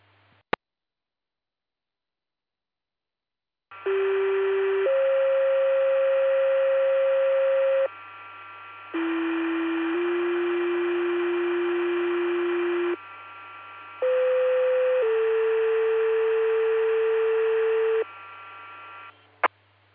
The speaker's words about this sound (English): Disregard the tones.